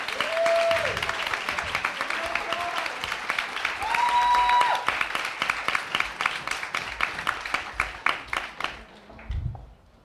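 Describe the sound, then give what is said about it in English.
Applause and cheering from an audience welcoming panelists at a beauty panel event: dense, steady clapping with a few whoops, thinning into scattered claps toward the end. “Yes, I just cheered for myself.”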